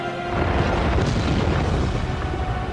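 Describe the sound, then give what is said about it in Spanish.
The Mount Doom volcano erupts in The Lord of the Rings film, a loud, continuous, dense roar of deep rumbling noise that keeps going without a break. “El volcán del Monte del Destino estalla levantando una gran llamarada.”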